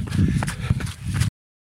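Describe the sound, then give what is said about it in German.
Quick running footsteps of a runner finishing a 50 km run, rapid and fairly loud thuds for just over a second before cutting off abruptly. “So, ich renne jetzt ins Ziel, Freunde”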